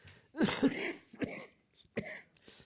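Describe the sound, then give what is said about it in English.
Harsh coughing or throat clearing from a person with a cough comes in a few rough bursts: a longer cluster near the start, then shorter separate hacks with quiet gaps between them. “I appreciate you guys putting up with this cough because I need to talk through it.”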